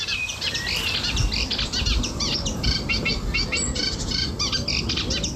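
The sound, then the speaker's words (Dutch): A Eurasian reed warbler sings at Lent near Nijmegen, a steady, unbroken stream of rapid, scratchy chattering notes and repeated chirps, fairly loud, with no voices. “Neem nou deze bijdrage van de kleine karekiet.”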